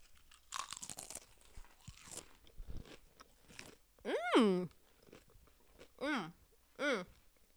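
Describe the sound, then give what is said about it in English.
Crunchy chips loaded with crab dip are bitten and chewed in crisp, crackling crunches, followed by a few short vocal sounds from the eaters. “No one likes to hear eating on a podcast, but here we go. It's ASMR. Here's your ASMR for the day.”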